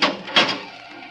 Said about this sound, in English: Open the gate. Sure, I'll open.